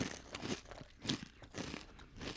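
Crunching as someone bites and chews folded chips flavored like Trader Joe's Thanksgiving stuffing: repeated crisp crunches in a steady rhythm, fairly quiet and without talk.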